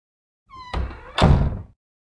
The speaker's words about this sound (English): Together, the three children locked the mansion doors tightly shut.